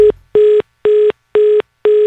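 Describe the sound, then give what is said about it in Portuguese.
An electronic telephone tone signalling an incoming call: a steady run of short, identical mid-pitched beeps at an even rhythm, alone, with no voices. “Atende o telefone aí, mano. Ah, olha aí, mais um chamando, mais um ligando pro Romildo.”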